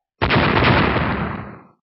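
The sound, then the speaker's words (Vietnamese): An explosion sound effect in a fantasy audio drama: a loud, dense blast that starts abruptly, roars for about one and a half seconds and then fades out, with no voices. “Vài tiếng nổ mạnh truyền đến”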